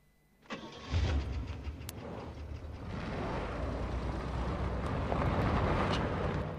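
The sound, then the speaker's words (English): A pickup truck's engine revs into motion as the vehicle speeds down a track. After a short click the engine surges to a loud, rough, continuous rumble that holds steady for several seconds. “The truck speeds down the track.”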